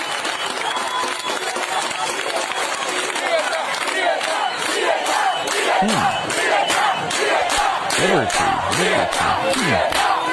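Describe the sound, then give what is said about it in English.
A large Cuban crowd chanting together, a loud, steady wall of many voices that keeps going without a break, with rhythmic accents building in the second half. “Here's another Cuban group chanting.”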